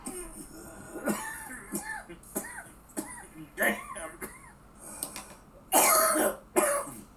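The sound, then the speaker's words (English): A person coughs heavily in a long, ragged fit of many harsh, raspy bursts with wheezy voiced catches between them, building to two loud, hacking coughs near the end. “Excuse me for asking a question while you cough up a lung.”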